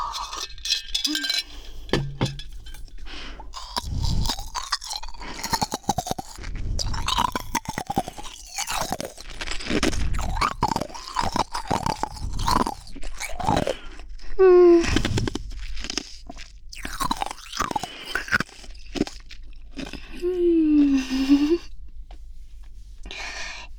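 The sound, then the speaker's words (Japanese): Ice being crunched and chewed, with many loud, irregular crunching and grinding bites throughout and a couple of brief hummed vocal sounds in between. “美味しいです、氷。ハマってしまいました。”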